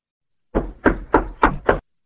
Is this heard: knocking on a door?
yes